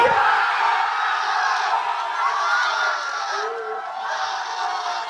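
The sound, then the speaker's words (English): A bar crowd at a Culver City tavern erupts in cheering as a final penalty kick wins the World Cup match for Argentina, with sustained, loud whooping and shouting from many voices that barely lets up. “Now, let's go to Rocco's Tavern here in Culver City, California. Now, this was a sound when one last penalty kick gave Argentina the win.”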